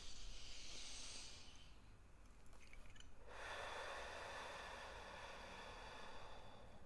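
Slow, deep breathing, heard as soft, airy, drawn-out breaths with a brief lull between them, quiet and alone with no talk.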